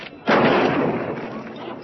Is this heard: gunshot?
yes